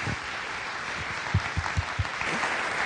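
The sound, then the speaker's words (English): Audience applause welcoming a speaker at a church gathering: a steady, even wash of clapping from many hands, with a few louder low claps near the middle, alone and without talk. “would you just join me and let's put our hands together and give Maureen a warm Commonway welcome.”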